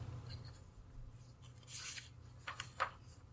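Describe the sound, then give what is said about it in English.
A pen writes something down in a few short, scratchy strokes that are faint and sharp. A quiet low hum sits underneath, and no one talks. “Write something down”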